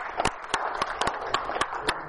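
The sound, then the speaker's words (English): Hand clapping: seven evenly spaced single claps in a steady, unhurried rhythm, fairly faint over a low background hum. “And if any, yeah, hey, I clap for that.”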